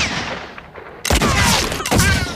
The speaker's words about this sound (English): Put the shooters away! That was a headshot, Frank! He could have killed me!